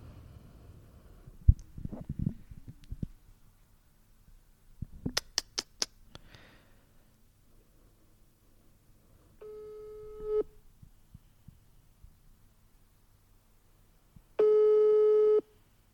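Telephone ringback tone while calling a listener: two long buzzing tone bursts about four seconds apart, preceded by faint clicks and a quick run of sharp taps.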